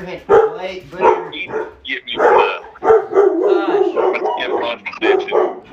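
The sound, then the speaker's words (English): Dogs barking outside, erupting in many sharp, fairly loud barks that come in rapid, uneven bursts across the whole stretch. “The dogs start going crazy over fucking nothing outside.”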